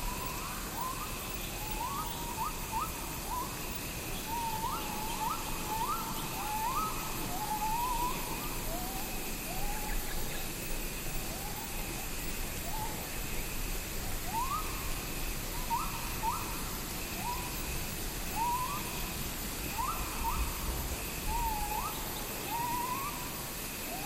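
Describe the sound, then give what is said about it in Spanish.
Jungle birds call in short, repeated hooting phrases of mid pitch, sounding again and again over a dense, steady bed of insect buzzing and hiss that continues throughout. “poniendo atención a cada uno de esos cantos preciosos los insectos y los pájaros, toda la vida nos rodea aquí en la selva.”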